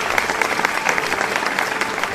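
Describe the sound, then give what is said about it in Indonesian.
Applause for clever children in a lesson on the letter B: a brief, even burst of dense clapping with quick sharp claps at a steady level. “Berikan tepuk tangan untuk anak cerdas.”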